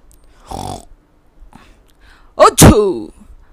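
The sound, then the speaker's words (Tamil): A human voice imitates a sneeze for a small wild boar puffing out its cheeks with a trembling sharp nose: a short breathy puff, then a loud, voiced achoo whose pitch falls away. “அவர் தன் குட்டி கன்னங்களை ஊதி பெரிதாக்கி தும்மவும் அவரது கூர்மையான மூக்கு நடுங்கியது”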